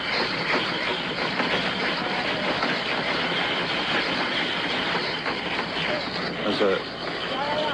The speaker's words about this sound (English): Here's the ice being crushed.